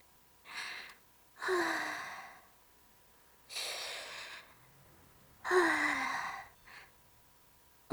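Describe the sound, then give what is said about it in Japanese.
Deep breaths taken to calm nerves: four airy breathing sounds spaced out in a slow rhythm, two softer and two louder with a slight raspy edge, then a faint final puff. “こんな時は確かあれです、深呼吸なのですよ。”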